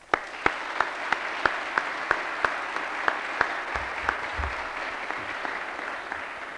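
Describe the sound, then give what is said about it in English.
Applause from an audience welcoming appeals court judge Paul Pressler at a Southern Baptist gathering: sustained, fairly even clapping with regularly spaced sharper claps standing out, continuing throughout without voices. “Let's give Judge Pressler a southeastern welcome.”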